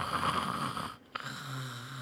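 Snoring from a sleeping retired man: a rough, rattling snore, a brief silent pause, then a short snort and a low, steady droning breath, alone without talk.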